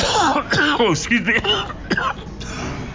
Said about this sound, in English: Old man cough there.